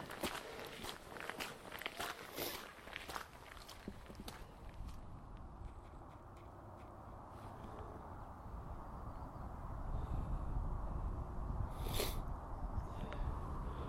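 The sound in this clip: Footsteps on a short, steep uphill walk outdoors: a faint, steady crunching tread that continues throughout over a constant rushing background.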